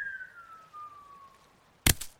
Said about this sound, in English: A smoke bomb!